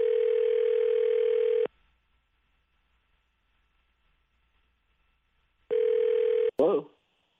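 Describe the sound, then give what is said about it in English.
A telephone dial tone on an outgoing call sounds steadily, cuts off into near silence, then returns briefly and ends with a short, sharp burst of sound. “So we're going to try to call Ben and see what's going on with him.”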